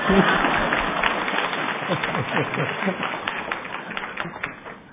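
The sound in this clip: Audience applause at a Lunar New Year celebration: dense, steady clapping that slowly thins out, with voices mixed in throughout.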